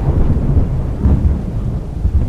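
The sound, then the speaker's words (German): Thunder rumbles close by: a deep, loud, continuous low roll that swells and churns without a break, with no voices. “Ein sattes Grollen in unmittelbarer Nähe war zu vernehmen. Der Herr des Donners schien gesehen zu haben, wie sie ihren Weg fortsetzte.”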